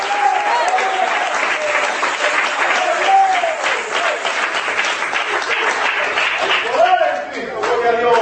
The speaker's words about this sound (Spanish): Yo voy a aplaudir por alguno de ustedes que no trajeron manos hoy aquí